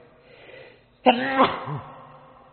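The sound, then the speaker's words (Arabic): A single sharp sneeze bursts out during a quiet lecture, loud and abrupt after near silence, followed by a short murmur of a voice. “الحمد لله رحمك الله يهديكم الله يصلح بالكم”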